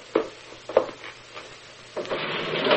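A panel is opened in a radio drama: a few sharp knocks and scrapes come at intervals, then a steadier rubbing noise builds and holds to the end.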